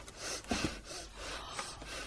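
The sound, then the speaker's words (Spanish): Heavy breathing: a few soft, noisy breaths and puffs of air, faint and close together, with no speech over them. “Deja de respirar así. No respires.”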